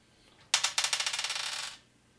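Dice clatter during a tabletop role-playing game: a rapid burst of sharp clicks and rattles that starts loud and keeps pattering for just over a second before stopping abruptly, with no talk.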